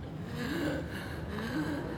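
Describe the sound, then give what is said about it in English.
A woman gasps as she jerks awake while flying a glider at altitude, taking two voiced, sharp intakes of breath over steady background noise. “Jerked awake by the force of her wings reopening, she takes in a huge breath.”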